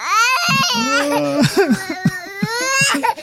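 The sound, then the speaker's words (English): Uncontrollable sobbing from a played recording: loud, high-pitched wailing cries that waver and break into short gasping sobs and catches of breath. “Uncontrollable sobbing. I had you didn't know I had audio of that.”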